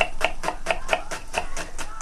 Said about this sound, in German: Ich schneide die Zwiebel, meine ich.